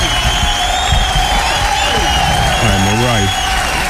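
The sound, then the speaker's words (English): Applause and cheering welcome a guest back into a studio, a dense, steady clatter of clapping throughout, with a voice rising briefly above the crowd near the end. “Ladies and gentlemen, please stand up, put your hands together, welcome Old School Steve back in studio.”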